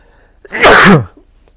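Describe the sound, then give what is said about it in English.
One loud, sharp sneeze bursts out alone after a brief intake of breath, then fades quickly into near silence. “having a little sneezing attack here”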